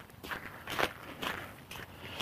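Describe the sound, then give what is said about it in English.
Footsteps crunch across nubbly, uneven ice with patches of snow. Several soft, gritty steps fall at an irregular walking pace, fairly quiet. “but it's little nubbly ices, and they make the walking feel quite uncertain.”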